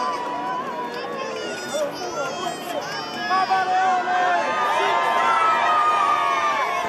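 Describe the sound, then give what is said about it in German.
Faithful cheering and shouting on St. Peter's Square in Rome as the Pope is driven through the crowd greeting people, a continuous crowd roar that swells slightly in the second half, with a voice speaking over it. “Wir hören hier weiter im Hintergrund noch den Jubel der Gläubigen, während der Papst gerade noch weiter auf dem Petersplatz in Rom fährt, die Gläubigen einzeln begrüßt.”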